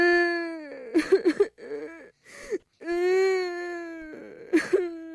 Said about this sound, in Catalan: La nena es va posar a plorar